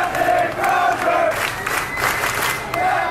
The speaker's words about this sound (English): hundreds of sailors, too many to even count from the videos that are out there of this, cheered him as he walked off the ship.